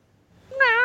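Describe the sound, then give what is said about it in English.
A single hungry cat meows once: a short, clear, tonal cry that swells up out of near silence and holds to the end. “Oh, them cats are hungry, man.”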